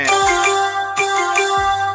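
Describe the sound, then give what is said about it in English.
Sports news app notification chime on a phone: bright, ringing electronic tones repeating in a short melodic pattern, with soft low thumps beneath, loud and alone. “I think I got a notification from ESPN. Nah, but I love that sound, by the way.”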